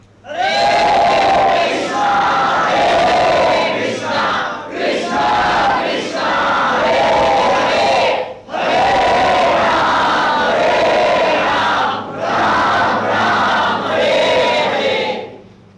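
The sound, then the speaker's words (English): A crowd chants the Maha Mantra in unison, loud and full-voiced, in long sung phrases separated by a few brief pauses. “And he does this by distributing the sweet sound of the Maha Mantra.”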